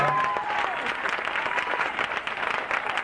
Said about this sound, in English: I certainly appreciatively applaud the best choir on this side of glory.